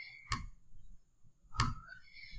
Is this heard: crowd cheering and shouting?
no

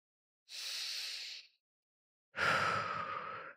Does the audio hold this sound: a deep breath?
yes

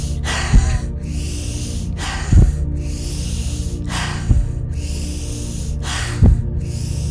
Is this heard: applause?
no

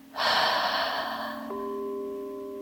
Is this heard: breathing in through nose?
yes

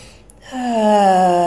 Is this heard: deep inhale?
yes

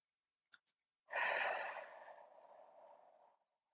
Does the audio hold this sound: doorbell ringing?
no

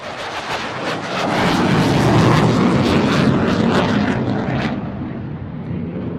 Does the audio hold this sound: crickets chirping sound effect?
no

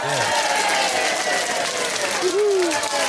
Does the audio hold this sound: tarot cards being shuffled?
no

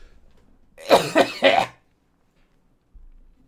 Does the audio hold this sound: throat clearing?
yes

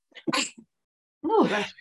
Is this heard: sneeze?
yes

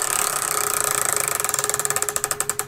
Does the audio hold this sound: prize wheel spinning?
yes

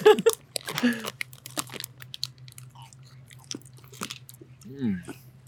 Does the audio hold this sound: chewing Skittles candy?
yes

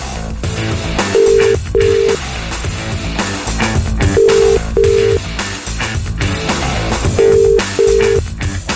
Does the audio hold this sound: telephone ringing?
yes

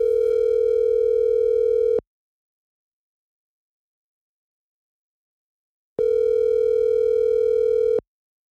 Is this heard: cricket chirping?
no

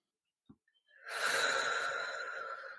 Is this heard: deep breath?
yes

